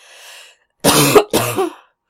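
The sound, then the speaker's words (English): Coughing, two harsh, loud coughs in quick succession with only a short gap between them, each a rough burst of breathy noise and no speech. “I'm sorry for the coughing.”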